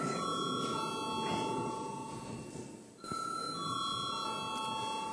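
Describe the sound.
An electric bell rings in a parliament chamber as a faint, steady, high-pitched tone made of several sustained pitches. It dips briefly near the middle, then carries on unchanged.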